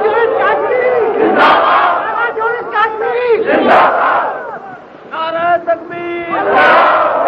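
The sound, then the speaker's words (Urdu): Rally crowd chanting a slogan at a political gathering: loud, repeated bursts of massed shouting, with a single voice heard between them. “بھائی یہ نعرہ ٹھیک ہے جی”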